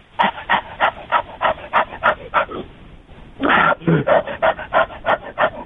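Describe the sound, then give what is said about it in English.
A person imitates a dog's panting with many rapid, rhythmic breathy huffs, broken by a short pause midway before the panting resumes. “Oh, well, here, I'll do some panting.”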